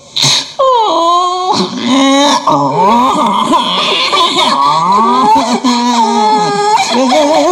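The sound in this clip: Forest animals wail and cry at the door of a blue jackal in a fable: loud, overlapping, wavering moans and howls with shifting pitch, continuous for the whole clip.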